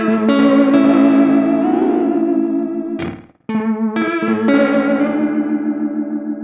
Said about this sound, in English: So did we answer this guy's question? What is an oil can delay? I mean, he's hearing it.